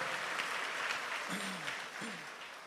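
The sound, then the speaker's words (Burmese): A church audience claps in praise during worship: a steady, fairly quiet wash of many hands clapping throughout, with a faint voice briefly audible underneath. “ထိုဘုရားကိုလက်ခုပ်တီးလျက်ချီးမွမ်းကြရအောင်”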